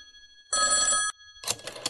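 A telephone ringing with one clear burst of bright, high electronic trilling that lasts about half a second and stops abruptly after a moment of near silence.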